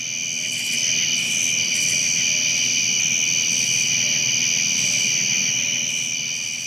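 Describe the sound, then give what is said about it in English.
Many crickets singing with katydids in trees at night, forming a dense, steady, high-pitched chorus of layered trills that continues without a break. “what you're hearing now is this background noise of many, many crickets all singing, and then also katydids in the trees.”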